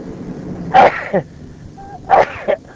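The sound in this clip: Two loud human sneezes, each a sharp burst followed by a shorter second gust, about a second and a half apart over a low background murmur.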